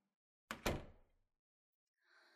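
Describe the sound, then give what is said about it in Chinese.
A door being shut, with a sharp double thud as it swings closed and latches, the two knocks close together, then a short fading rattle and a faint low noise afterward. “站在门口干嘛？把门关上。”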